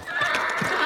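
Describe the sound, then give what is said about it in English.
A horse neighs, a single short, bright whinny lasting under a second, from a horse happy to be home at the barn. “That is the sound of a horse that's happy to be home.”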